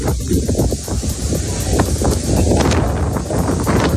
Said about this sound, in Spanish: El primero, el del fuego, el viento y el miedo que provoca.